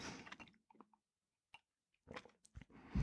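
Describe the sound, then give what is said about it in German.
A person takes a drink mid-conversation, with faint slurps and gulping swallows spaced by brief silences. “Und jetzt muss ich mal kurz was trinken, sonst kackt hier meine Stimme ab.”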